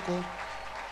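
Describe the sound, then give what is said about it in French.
A church audience applauding: a brief, steady wash of clapping that opens with a short vocal sound above it. “Est-ce qu'on peut l'acclamer encore une fois?”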